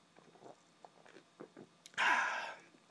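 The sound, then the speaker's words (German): Sipping beer from a can: a few faint, quiet slurps and small mouth sounds, followed by a louder, breathy, fizzing burst that slowly fades. “Und hier ist jetzt mein Feierabendbier. Aus der Dose. War voll eklig. Aber egal. Kurz einen Schluck.”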